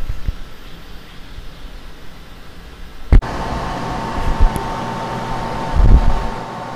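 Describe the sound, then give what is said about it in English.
An air cleaner runs with a steady whooshing hum of fan airflow. A sharp click comes partway through, after which the airflow sounds louder and fuller, with a brief low thump near the end. “This is the sound of the air cleaner.”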